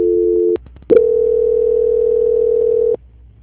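A steady, loud telephone tone sounds as a dropped call is transferred again. It breaks off with a brief click, then resumes as one long unbroken tone before stopping, with no talk over it.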